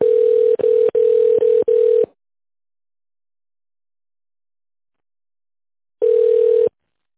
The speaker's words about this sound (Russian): Соединяю с оператором.